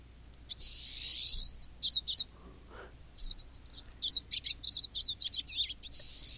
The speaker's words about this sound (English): This is the sound of a bird called a pine siskin. It's a type of finch